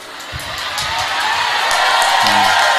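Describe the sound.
A crowd cheers and shouts, a dense mass of voices that swells gradually louder over a couple of seconds.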